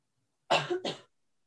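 A person clearing their throat: two quick, rough, loud bursts, the first slightly longer, alone against silence.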